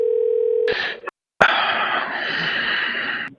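Steady telephone dial tone holds alone for about two-thirds of a second, then cuts off into brief noisy handset clatter, a short silence and a longer stretch of line noise.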